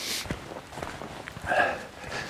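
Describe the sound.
A few soft footsteps as someone walks up onto a firmer, drier raised embankment in a bog, with irregular, muffled steps at moderate volume and no talk.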